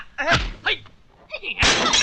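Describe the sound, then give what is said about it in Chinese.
Antiques are smashed: a loud, shattering crash near the end follows bursts of shouting voices. “干什么砸我的古董啊？”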